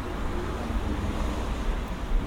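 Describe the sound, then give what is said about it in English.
Wind blows outdoors in the seaside town of Ramsgate, a steady, broad rushing noise with a deep low buffeting that stays fairly even, with no talk. “So it's a bit windy out there”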